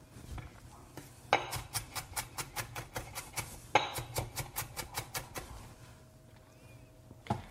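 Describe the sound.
A knife chops ingredients on a cutting board in a kitchen while making chili oil for barley tofu, with two quick runs of steady, evenly spaced chops separated by a short pause, all fairly quiet.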